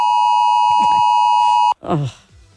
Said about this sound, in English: that was that 2 o'clock alarm thing.